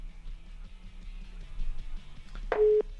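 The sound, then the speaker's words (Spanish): Phone tone after a dropped call: a faint, repeating electronic beep pattern, closing with a brief, louder steady tone near the end, with no talk. “Se cortó la llamada.”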